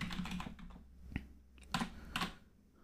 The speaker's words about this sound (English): Okay, here we type player. Player I.